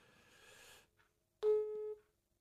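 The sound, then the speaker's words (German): A single steady electronic telephone tone on an unanswered call, loud and lasting about half a second, following a stretch of faint hiss. “seid jetzt live dabei, wie ich Benjamin einfach nochmal anrufe. Er wird wahrscheinlich einfach weiterreden, aber es bringt ja nichts, wenn ich ihn nicht höre.”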